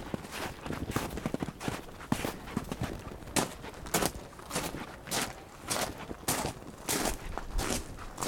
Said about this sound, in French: pour arriver à la cabane, il faut marcher dans la neige.